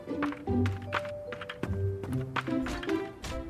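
Clopping hooves of a horse pulling a cart that carries cheese, a quick series of hollow knocks mixed with bright melodic music.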